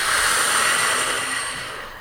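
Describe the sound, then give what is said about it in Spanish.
Breathing during a guided relaxation exercise in a healthy-habits session: a long, steady, breathy rush of air that slowly fades at the end, with no talk over it. “vamos a inhalar, exhalamos”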